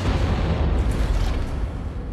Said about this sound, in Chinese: 子弹没有击穿后备箱，几次弹射之后，正好射中了后备箱里的炸弹。